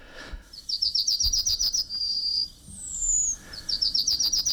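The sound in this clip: Yellowhammer song in the Prague dialect: a rapid series of high, thin chirps running into a long drawn-out whistle, then a higher slurred note before another fast chirping series begins, with faint low rustling beneath.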